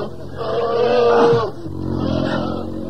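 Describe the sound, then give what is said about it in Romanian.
Bears roar in a deep, rough growl that swells and then slides downward in pitch. A second, lower growl follows and carries on steadily to the end. “Urși! Vin urși!”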